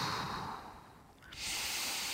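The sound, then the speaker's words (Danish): Soft breathing during a yoga hip-opening stretch, with an airy breath that fades, a brief lull, then a steady hissing intake of air, quiet and without talk. “Trækker vejret.”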